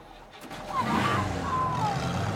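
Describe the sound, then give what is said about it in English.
A truck engine revs up as the vehicle pulls away, the motor rising to a loud, steady roar with a whining tone that wavers slightly. “The man climbs back into the truck, fires up the engine and drives off, leaving Alejandro at the roadside”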